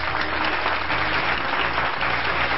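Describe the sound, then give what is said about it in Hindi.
Loud, continuous applause from an audience welcoming a senior Rajyoga teacher, many hands clapping in an unbroken, even roar with a slightly muffled top end, no voices over it. “जोरदार तालियों के साथ उनका स्वागत कीजिए”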